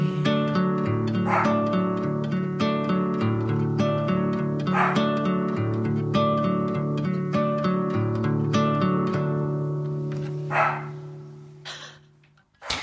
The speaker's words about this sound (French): Le chien s'en mêle.